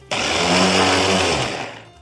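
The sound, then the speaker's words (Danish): A robot lawn mower running over a plastic flip-flop and chopping it up, a loud harsh grinding buzz that cuts in abruptly, holds for about one and a half seconds, then tails away. “Men i stedet for at samle klipklappen op, så kører den lige hen over den, og det lyder som om en stor plastikdims, der bliver hakket i stykker.”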